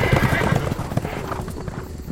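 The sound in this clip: Horses' hooves clip-clop as three riders approach, a quick, steady stream of many loud hoofbeats that eases slightly after the first moments.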